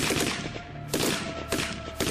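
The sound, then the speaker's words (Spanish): Gunfire crossfire with bullets flying, used as a sound effect in a tabletop horror role-playing raid. Several sharp, loud bursts cut through a steady rumbling bed, with no voices. “Van a empezar a, cruzar fuego para allá, balas van, balas vienen.”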